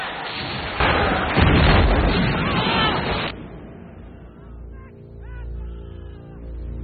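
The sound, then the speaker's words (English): Heavy guns fire on a besieged fort's stockade and parade ground, with shells bursting in mid-air: a loud, dense roar of blasts lasts about two and a half seconds, then drops away to a low, rumbling quiet. “from the muzzles of the heavy guns as they spew out death and destruction. Some of the shots burst in mid-air, raining fire down onto the stockade and parade ground.”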